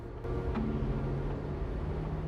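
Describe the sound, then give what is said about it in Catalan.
A vehicle drives along a road: a steady low engine rumble and road noise that holds at an even level after a brief quieter start. “Un vehicle avança per la carretera.”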